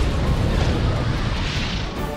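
An orbital MAC cannon blast explodes in a video game, a dense, loud, roaring wash of noise that rumbles steadily throughout and eases slightly at the end.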